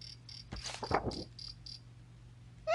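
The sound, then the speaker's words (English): Faint cricket chirping, a series of short, high-pitched pulses repeating in an even rhythm, briefly masked by a louder burst of sound and followed at the end by a rising whistle-like tone. “Can you hear the cricket chirping?”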